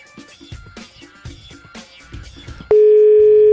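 A loud, steady telephone dial tone cuts in abruptly partway through and holds unbroken at a single pitch to the end as a call is being placed.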